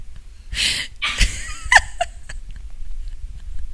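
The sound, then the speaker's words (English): A person sneezing in the background: a few sharp, breathy bursts in the first two seconds, then only quiet low background noise, with no clear talk. “I'm sure y'all can hear her sneezing in the background.”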